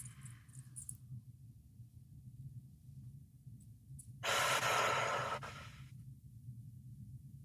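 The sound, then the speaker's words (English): Slow breathing, in through the nose and out through the mouth. One long, soft, airy breath swells clearly and then fades, over a quiet, steady low hum, with only faint sounds before it. “we'll take just a few moments to breathe together, inhaling through the nose, exhaling through the mouth.”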